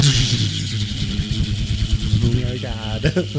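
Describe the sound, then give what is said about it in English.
A bottle spinning on the floor during a game of spin the bottle, giving a continuous rattling, rumbling whir with a fast, uneven rhythm, while people talk over it. “You gotta wait till it spins again. There's rules to this aisle. So let's spin the bottle.”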